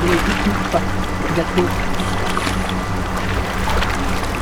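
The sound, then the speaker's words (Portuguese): Water sloshes and splashes steadily as a man wades carefully into a river, leading a donkey loaded with crates; a continuous, churning rush of water with no distinct pauses. “João entra na água puxando o burro. Ele anda cuidadosamente.”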